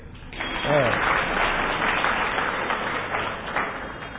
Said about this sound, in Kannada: ಹಾಕಿ ಚಪ್ಪಾಳೆ ಹಾಕಿ